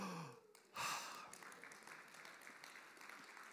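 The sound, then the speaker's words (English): A big breath taken by a preacher partway through a sermon on Bible prophecy: a short, loud airy rush that quickly fades into a steady, softer hiss. “Big breath.”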